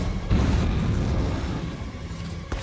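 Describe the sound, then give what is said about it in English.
Missile explosion destroying a submarine in a Terminator film, a deep, heavy boom that swells into a long rumbling roar, slowly fading before a brief sharper crack near the end. “The HK fires a missile. The submarine disintegrates in a flash. Debris sinks.”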